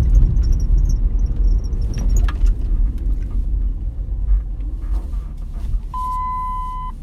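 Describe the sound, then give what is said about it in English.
Steady low road rumble from a car driving down the road, continuous and heavy throughout, with a brief steady electronic tone near the end. “I'm sitting here driving down the road.”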